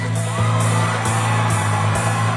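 A crowd cheers and whoops at Ultra Music Festival in Miami, the shouts riding over loud, pulsing electronic dance music with a steady, regular kick beat throughout.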